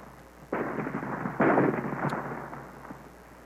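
A weapon fires at a rock as a dramatic sound effect: two harsh, noisy roaring bursts, the second louder than the first, trailing off into a gradually fading rumble.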